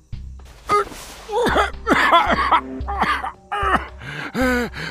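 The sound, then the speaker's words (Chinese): A man coughing while clutching his chest in pain: several rough, throaty coughs and strained, groaning exhalations in short, separated bursts, fairly loud and with no other sound. “贺明生像是刚回过神来似的，一手抚着胸口的痛处，一边咳嗽道”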